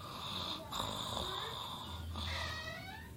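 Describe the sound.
Snoring of someone asleep: a few long, rhythmic snoring breaths with a whistling, wheezy tone riding over a raspy rumble, fairly faint and steady.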